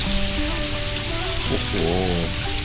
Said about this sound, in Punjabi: ਇਹ ਬਾਰਿਸ਼ ਫੇਰ ਸ਼ੁਰੂ ਹੋ ਗਈ ਹੈ।